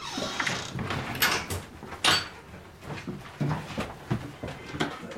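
A key turns in a door lock to open a room in the former apartment of writer Georges Perec. Several metallic clicks, rattles and clunks of the lock mechanism come at irregular intervals.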